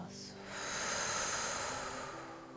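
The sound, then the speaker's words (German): A deep breath out during a breathing exercise: one long, soft, airy exhale that swells, then slowly fades. “Atme tief in deinen Bauch hinein und atme ganz tief aus.”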